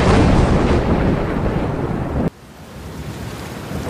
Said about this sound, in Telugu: Marriage start అయిందో లేదో పెద్ద ఉరుముల మేరుపులతో వర్షం పడుతుంది.